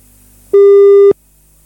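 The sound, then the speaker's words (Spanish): A telephone line tone sounds while a call is being placed: one steady, flat, mid-pitched beep lasting just over half a second, loud and clear over a faint low background hum. “Ahora vamos a ver si es que nos contestan los chiquillos. Parece que ahí estamos ya llamando.”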